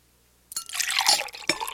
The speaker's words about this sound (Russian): Гафах, Его Величество, вероятно, хочет еще немного воды.